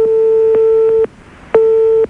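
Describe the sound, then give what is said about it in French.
Two long, steady electronic tones ring on a telephone call that goes unanswered. Each tone lasts about a second and they are separated by a short silence, with no voices during the ringing. “On essaie de t'appeler là pour l'instant, Grégory, ça sonne dans le vide.”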